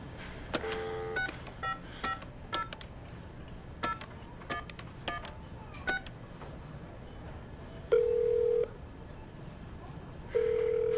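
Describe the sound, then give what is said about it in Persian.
A telephone number being dialed: a rapid run of many short, faint keypad tones, then after a pause two longer steady tones, with no voices. “اصلا اگه باور نمیکنین این شماره تماسشونه بفرما زنگ بزن”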